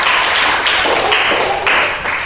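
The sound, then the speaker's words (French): Applause from a church audience for the children: dense, steady clapping, loud throughout with no break. “Acclamation pour les petits!”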